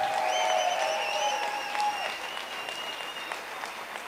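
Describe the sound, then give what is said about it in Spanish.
Audience applause during a speech celebrating civil society, dense steady clapping that fills the whole stretch and eases slightly toward the end. “Celebramos que gracias al grandioso esfuerzo de la sociedad civil no lo han conseguido. Un aplauso, por favor.”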